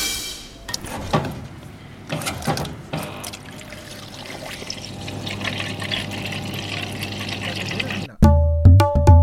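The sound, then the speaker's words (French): Water pours from a jug or pitcher in a school setting, a steady rushing trickle that holds at an even level for several seconds before other sounds break in at the end. “Réponse, l'eau qui coule d'un bro ou d'un pichet, évidemment quand on a soif.”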